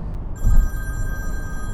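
A telephone rings just before a voicemail plays, heard as a steady, high electronic tone that starts abruptly and holds evenly over a low background rumble, with no voices.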